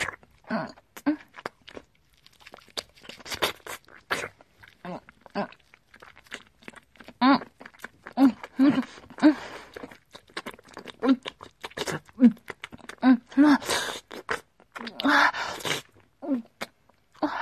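Chewing and eating a meat bun: many soft, irregular bites and wet, smacking mouth sounds follow one another with short pauses.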